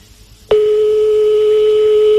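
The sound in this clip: A telephone line tone sounds during a call: after a brief quiet start, a single steady, loud electronic tone begins and holds unbroken to the end.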